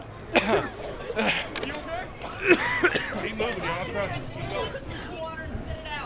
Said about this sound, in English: That's the sound of protesters who were just tear gassed.